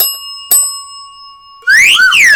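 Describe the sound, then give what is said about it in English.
A small news bell is struck twice in quick succession, each strike giving a bright, high ring that hangs and fades. A loud warbling burst follows a moment later. “Did you know that we forgot the news bell last episode? That is just tragic, so I'm going to ring news bell Chan twice.”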